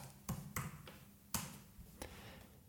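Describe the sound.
Sparse typing on a computer keyboard, a handful of faint, irregular clicks and taps with quiet gaps between them and no voices.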